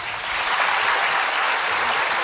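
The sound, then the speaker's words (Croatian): Applause from a crowd as members of a band are introduced at a live show: dense, continuous clapping, loud and steady from start to finish, with no voices over it. “molim aplauz”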